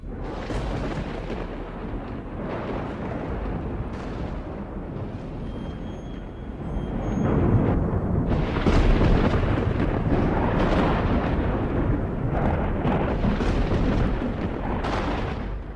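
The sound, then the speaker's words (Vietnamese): Deep thunder rolls across the sky in continuous, rumbling waves that swell louder midway and stay heavy to the end, with no voices. “Vừa lúc ngọn lửa bùng lên thì trên bầu trời nổi sấm ầm ầm như là thiên lôi động nộ.”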